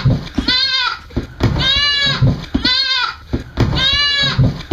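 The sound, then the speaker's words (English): Four goat bleats from a played recording, each a wavering, nasal cry of about half a second, spaced at fairly even intervals and loud against a quiet background. “It kind of feels like you're rage baiting me into trying to play goat sounds.”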